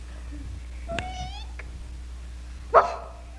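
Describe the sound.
A cat's meow, a single faint wavering cry with a slight downward bend, over a low steady hum, followed later by a short, louder burst of noise.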